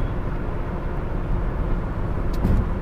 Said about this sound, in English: My car is loud on the road, and it's already loud, so that's why I'm trying to talk louder.